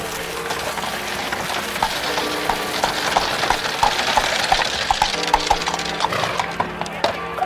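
Hooves of a horse drawing a carriage clip-clop in a steady, even rhythm over a constant rumbling, hissing noise throughout.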